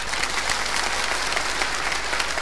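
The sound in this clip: Polite applause from an audience practising in a comic clapping lesson: a dense, even patter of many hands, steady and moderate in loudness without swelling or fading.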